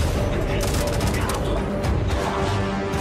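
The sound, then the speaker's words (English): Gunfire from a Bethesda video game trailer, with shots aimed at a T-Rex: dense, rapid shots blended into a loud, busy mix of effects. “Look at the headshots. Shoot the T-Rex!”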